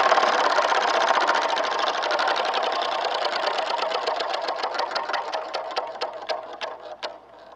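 A prize wheel spun by hand clatters with rapid, even ticking that gradually slows, the clicks spacing farther apart and growing more distinct toward the end, with no voices over it.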